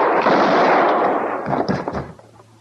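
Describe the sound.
Gunshots in a radio drama shootout: a loud, dense blast of gunfire roars for over a second, then a few sharper cracks follow before it fades out.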